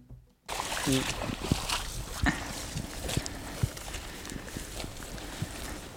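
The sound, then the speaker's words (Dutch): Footsteps squelch across a thick, wet layer of peat moss in a restored bog valley, with many soft, irregular, sloshing steps over a damp background. “Het is best zwaar wandelen op die dikke laag veenmos”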